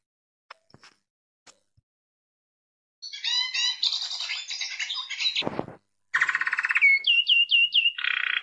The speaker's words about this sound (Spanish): Estamos escuchando el Cabecita Negra.